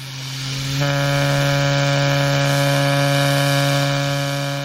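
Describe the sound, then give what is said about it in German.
An artificial vocal fold model, driven by an air pressure pump, starts after a brief airy hiss and settles into a steady, buzzing, harmonic tone that holds at an even pitch and loudness. “Per Luftdruckpumpe erhöht er dann langsam den Druck auf die Stimmlippen.”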